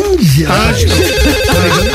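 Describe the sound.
A telephone ringback tone as an outgoing call is placed to a maternity hospital. A steady, repeating pulsed tone sounds under people talking.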